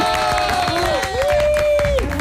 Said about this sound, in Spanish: Aplaudir en el estudio también.